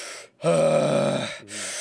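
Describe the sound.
A forceful Wim Hof-style breathing exhale, voiced as a groan into a microphone: a short breath, then a loud, sustained groaning exhale of about a second, followed by a softer voiced breath.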